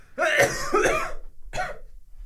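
Coughing by someone who has inhaled water: three harsh, wet-sounding coughs, the first two close together and the third after a short pause.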